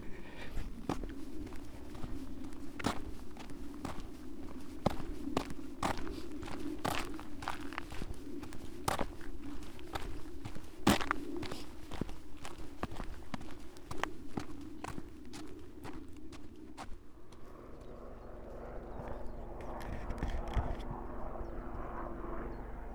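Footsteps walking up Golden Cap hill on the south coast, a steady run of crunching footfalls for about seventeen seconds before they stop, with a low aircraft-like drone running underneath throughout.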